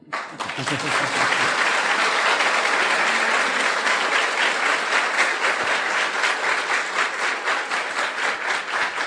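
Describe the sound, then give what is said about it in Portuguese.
Audience applause for an interpreter at a bilingual preaching event, a loud, dense wash of clapping that holds for several seconds and thins into more distinct, rhythmic claps toward the end. “I'd also like you to give a big hand clap for my partner Anne this week.”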